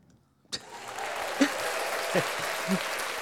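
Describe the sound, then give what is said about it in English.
Studio audience applause breaks out after a short quiet opening and holds steady and dense to the end, with a few brief vocal outbursts poking through. “Sorry, the studio audience is going wild over here.”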